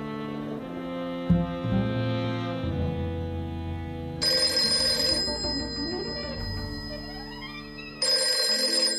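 A telephone rings in two bright, tonal bursts, the first lasting about two seconds and the second starting near the end, over a steady low background tone.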